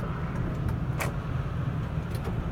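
A car driving, heard as a steady low rumble of engine and road noise with one brief sharp click partway through.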